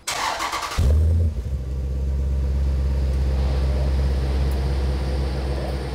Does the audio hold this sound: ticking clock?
no